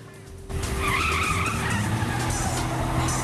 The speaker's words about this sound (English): reverses sharply in her car.